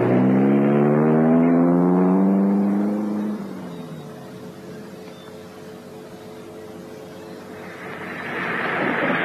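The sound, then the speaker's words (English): A car drives along with a droning engine hum whose tone sinks over the first few seconds. It then settles into a steady broad rumble, which swells again toward the end. “I shall be your chauffeur for a while. It's a nice day for it, and I like driving.”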